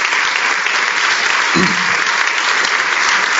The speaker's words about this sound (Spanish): I want to give the children a hand. They did good today. Se portaron bien los niños. Vamos a darles un aplauso.